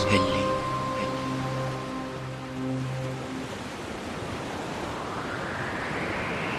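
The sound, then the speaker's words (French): Sea waves break into white foam in a steady, rushing wash of surf. A held tonal sound fades out during the first half, leaving only the surging water. “Et voici qu'apparaît, toute blanche d'écume, la mer mystérieuse au vin sombré,”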